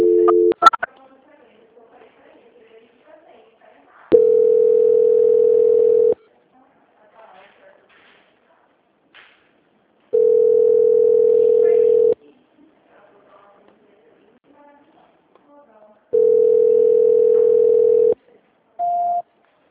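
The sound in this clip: Telephone ringback tone plays while a call is being transferred: three long, steady mid-pitched tones of about two seconds each, separated by quiet gaps. A short, higher beep follows at the end.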